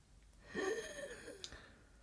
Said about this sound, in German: Machen Sie sich mal ein bisschen frei obenrum. Mal einatmen.